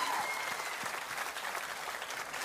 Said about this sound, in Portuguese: Alô, salve de palmas, José Rico.